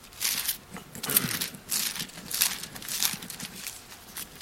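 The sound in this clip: Bible pages being turned to Ephesians, a few soft papery rustles and crinkles in bursts, with no speech.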